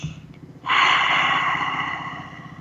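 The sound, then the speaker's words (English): A deep breath drawn in, heard as one long, airy rush of breath lasting about two seconds after a quiet start, fairly loud and alone without talk. “Take a breath with us.”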